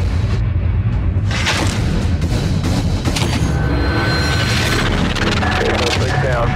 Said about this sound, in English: Shot fired, shot fired, shooting at us. Shot shooting at officer.